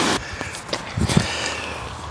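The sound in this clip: Footsteps on a walk around a low water reservoir: a few soft, irregular steps following a brief noisy burst at the start.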